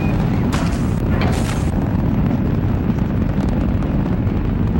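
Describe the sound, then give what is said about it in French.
Deafening roar of the Apollo 8 rocket lifting off: a dense, rumbling wall of low noise with crackling texture that stays loud and unbroken throughout. “Et le bruit assourdissant de la fusée qui s'arrache du sol résonne à des dizaines de kilomètres à la ronde.”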